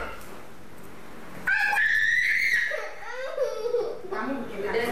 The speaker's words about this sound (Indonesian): Udah nah, nangis ya.